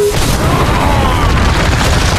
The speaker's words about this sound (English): The explosion dazzled Ryan, deafened him, coated him with a fine layer of dust, and the concussion rolled him over and over.